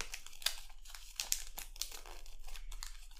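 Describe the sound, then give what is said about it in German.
Paper packaging crinkles and tears as a book is unwrapped: faint, irregular bursts of rustling and ripping with sharper crackles scattered throughout, and no talk. “So, und jetzt packe ich das Buch aus. Also es fühlt sich an wie ein Buch.”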